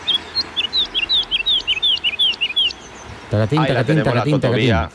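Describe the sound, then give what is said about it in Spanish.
Woodlark song: a long series of clear, high fluty notes repeated in quick succession, followed by a voice talking over the last part. “vamos con nuestra ave del día, que es la alondra totobía.”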